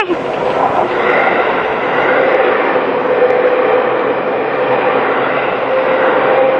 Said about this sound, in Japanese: 何のマークだ？なんかのマーク付きの電車だったね。